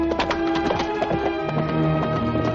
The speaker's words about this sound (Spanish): Entonces se marcha en su blanco caballo.